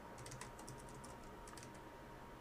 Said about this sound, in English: No, sorry. I was just trying to type something.